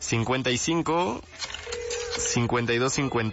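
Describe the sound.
A telephone dialing tone on a call-in show's listener line sounds as a brief, steady beep-like tone between stretches of lively talking.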